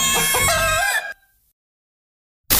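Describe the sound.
A single rooster crow from an advert for the McGockel restaurant in Edenkoben: loud, harmonic and sustained for about a second, then silence before an abrupt loud burst of sound at the very end.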